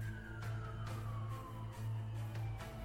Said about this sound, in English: a siren wails for some reason in this crevasse